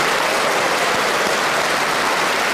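Audience applause welcoming panellists onto a panel game show, a dense, even wash of clapping, loud and unbroken for the whole stretch with no voices.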